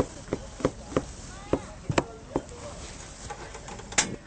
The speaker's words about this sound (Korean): 자, 이제 새송이 버섯이랑 썰어볼까요?